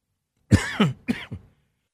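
Four quick, harsh coughs from someone with allergies come in a tight sequence. The first is loudest, the last two are a little softer, and silence follows.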